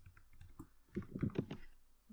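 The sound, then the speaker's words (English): Keyboard typing: faint, light clicks, sparse and scattered at first, then a denser burst of keystrokes in the middle. No one talks over them. “Sorry, we're not going to talk for a second while we type.”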